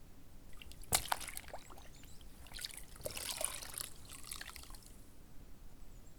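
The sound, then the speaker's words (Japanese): Water sloshing and trickling as an item is soaked and scrubbed with a brush, with faint, uneven splashy bursts and one sharper splash near the start, and no voices. “馴染んだら、今度は全体を水につけ、絵付きブラシで洗っていけばよい。”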